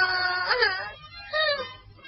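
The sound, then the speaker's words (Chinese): A little girl sits on the ground and bursts into tears. Two wailing, sobbing cries are separated by a short pause. “这个可怜的小姑娘终于忍不住坐在地上大哭了起来。”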